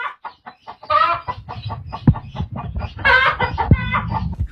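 A village chicken clucks loudly in many short, rapid bursts, breaking twice into longer, busier squawking runs.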